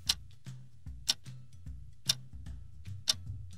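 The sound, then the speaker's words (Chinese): A lost wristwatch ticks in a steady tick-tock, with a sharp click about once per second and softer ticks between them, over a low, steady background hum. “滴答滴答的声音，循着声音就找到他了”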